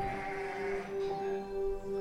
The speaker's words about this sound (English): This month we're knee-deep in lambs, or, well, Nigel is, as you can hear in the background